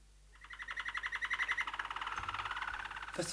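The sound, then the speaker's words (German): A canary trills on a curtain rod: a rapid, evenly pulsing high trill that runs for about three seconds, bright and fairly loud. “Nicht viel, aber genug, um den Kanarienvogel hinauswitschen zu lassen. Der Pumuckl hätte es gar nicht gemerkt, wenn nicht plötzlich das Trillern von der Vorhangstange heruntergekommen wäre.”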